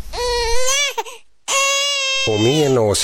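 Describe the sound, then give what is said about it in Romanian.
A child crying loudly in long, high, wailing sobs, two drawn-out cries separated by a brief pause for breath, the second rising into a wavering tone. “Taci, că dacă plângi, ți se face și mai foame.”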